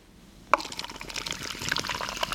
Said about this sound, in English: That sound is some seltzer, just in case you're wondering what's going on here.